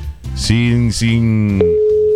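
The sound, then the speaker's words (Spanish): A telephone rings unanswered on an outgoing call during a radio call-in contest: a steady electronic line tone holds throughout, with voices heard over it. “dijeron que lo llamaran y no quiere contestar”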